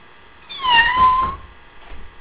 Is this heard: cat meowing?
yes